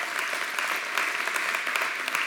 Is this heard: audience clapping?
yes